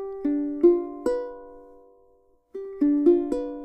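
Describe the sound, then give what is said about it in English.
Ukulele strings are plucked slowly one at a time with thumb and fingers, giving seven clear, ringing notes: a group of three, a pause, then a steady group of four, each decaying gently. “What you're going to do is try and pluck one at a time, thumb, index, middle, ring. If I did that slowly, it would sound like this.”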